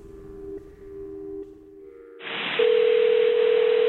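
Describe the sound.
Telephone dial tone on a call line: a steady, even mid-pitched tone with a few brief breaks, then a hiss of line noise joins partway through while the tone continues loudly to the end.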